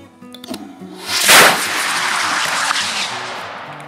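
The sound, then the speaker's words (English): A homemade rocket, its motor held with duct tape, burns through the motor casing and shoots off out of control. A sharp burst follows a few small pops, then a loud roaring hiss slowly fades away. “Rocket number 5 burned through the motor casing, and I think it melted the duct tape, so it just shot off out of control.”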